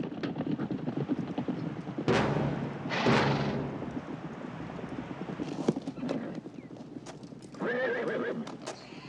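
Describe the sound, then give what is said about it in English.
Hooves of horses clatter as riders gallop away from a house, a fast uneven clip-clop with louder bursts of pounding and a horse's whinny rising near the end. “The Grahams race toward a grove of trees where their horses are hidden. Dylan charges up to the house in time to see the Grahams riding away.”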